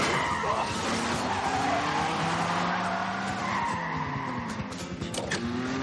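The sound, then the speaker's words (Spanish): A car accelerates hard and overtakes another car during a chase, with loud, continuous engine roar and screeching tires running throughout. “Acelera y adelantan a un coche.”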